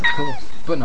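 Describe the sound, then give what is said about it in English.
A cat meows twice, loud drawn-out calls with falling pitch separated by a short gap, while a person talks over them. “That's the sound of a cat, everyone.”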